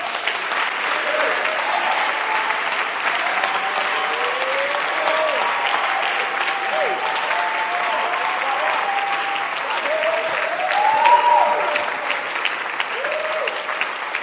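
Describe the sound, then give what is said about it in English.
Congregation clapping hands in church, a dense, continuous wash of applause with voices calling out over it throughout. “Clap your hands.”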